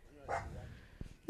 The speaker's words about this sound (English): I love my dog, but he's being a little... He barks at everything, and there's not even anything out there. He just barks at shit.